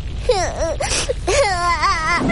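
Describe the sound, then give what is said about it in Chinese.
A crying sound effect for a little cloud in a children's story: high, wavering, sobbing wails in a few drawn-out bursts, voiced like a small child crying. “小云朵努力的哭了起来”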